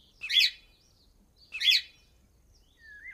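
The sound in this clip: A small caged pet parrot gives two loud, harsh squawking calls about a second apart, followed by a fainter whistled note, with quiet gaps between them.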